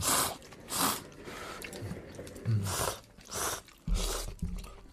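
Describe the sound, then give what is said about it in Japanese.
Slurping and chewing of spicy-sweet miso soup topped with a cheese-flavored corn puff snack: several moist, crunchy bursts of eating noise with brief pauses between them. “このうま辛がねそうちょっとなかなね今日はうまい棒のチーズ味を上に乗せています。いただきます。”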